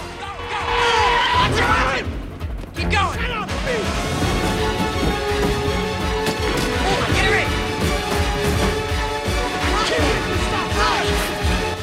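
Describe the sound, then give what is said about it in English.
A car screeches, mounts a curb and smashes through dustbins before ploughing into stationary cars at a junction and being struck by another vehicle: loud skidding and heavy crashing and clattering continue throughout, with a voice speaking over it. “It mounts the curb and knocks over some dustbins. It plows into some stationary cars at a junction and is hit by another vehicle.”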